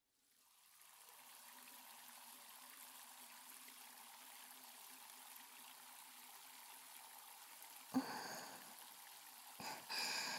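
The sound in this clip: Warm water runs steadily to wet someone lying back in a reclined chair, a continuous soft hiss throughout. A couple of brief knocks or splashes break in near the end.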